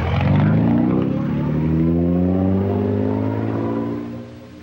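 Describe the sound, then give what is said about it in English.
A car drives off, its engine giving a steady, loud droning hum with layered tones that fades away near the end. “They drive off.”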